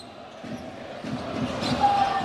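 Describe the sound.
A basketball bounces on the court during a professional game involving Scafati, giving a few dull, low thuds with steadily rising crowd noise behind them.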